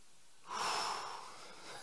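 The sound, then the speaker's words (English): A group of people take one deep breath together at a gathering, a single soft, airy whoosh that swells quickly, then slowly fades out. “I want to take a second first and just have all of us take a deep breath. Can we do that together?”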